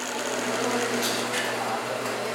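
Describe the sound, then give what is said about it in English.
A sewing machine runs at a women's care centre in Bogotá, Colombia, where women learn sewing skills, giving a steady, unbroken whirring drone with a low hum underneath throughout. “At the care block, they can also learn new skills like sewing that can help them to get jobs”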